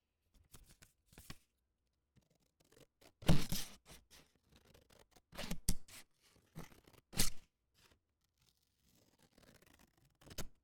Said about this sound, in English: Scissors.